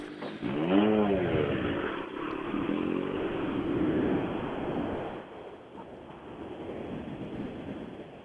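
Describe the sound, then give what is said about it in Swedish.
A Ford Fiesta R2T rally car arrives at the finish, its engine rising and falling briefly in pitch before settling into a steady rumble, with buffeting wind noise throughout. “Ja, sista bil i mål är Ford Fiesta R2T.”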